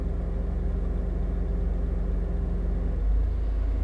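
Steady low engine rumble of a car being driven, a continuous even hum with no breaks that swells slightly louder near the end.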